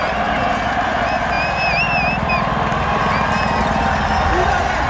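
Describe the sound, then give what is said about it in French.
A roaring crowd of spectators packs the top of a steep race descent, with police on hand: a dense, loud, unbroken wall of cheering and shouting voices, with thin whistle-like tones cutting through the roar. “La descente est forcément très rapide, hein, mais là on entend vraiment la clameur du public.”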